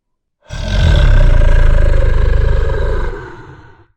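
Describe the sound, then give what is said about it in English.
A mighty roar bursts out as a creature gathers all its strength. It is loud, low and rumbling, with a rough, buzzing texture, holds steady for about three seconds, then tapers away to silence. “Splash gathered all his strength, and with a mighty roar,”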